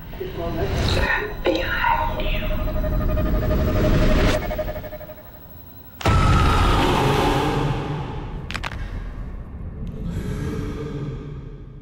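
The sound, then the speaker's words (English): Trailer audio for the horror film The Vigil: dark, rumbling drones with breathy whispers and gasps, cut by abrupt loud hits and a sudden drop to near quiet before swelling again, with voices speaking at points. “All right, so that was the trailer for The Vigil.”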